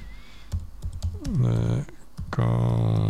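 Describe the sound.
A few quick key clicks from typing a search into YouTube on a computer keyboard, followed by a voice over the last part.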